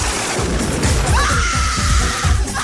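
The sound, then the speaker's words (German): Crowd screaming with joy just after a game ends, a loud, dense wash of voices filling the whole stretch, with a steady high tone entering partway through and holding. “Schrei vor Glück.”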